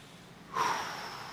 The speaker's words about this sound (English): All right, so everybody take a big deep breath.